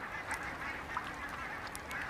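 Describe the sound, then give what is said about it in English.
Ducks, swans and coots crowded into the last open water of a freezing lake call constantly, their overlapping honks and cries forming a dense, steady chorus with no single call standing out. “Ducks, swans and coots huddle together in the last open water holes.”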